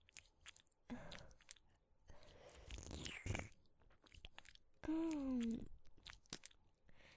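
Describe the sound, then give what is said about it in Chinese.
Wet tongue-licking ASMR deep inside an ear: close, moist smacking, squishing and clicking mouth sounds in irregular soft bursts, with brief pauses between them. “像这样用舌头深深地探入弟弟的耳朵里面，”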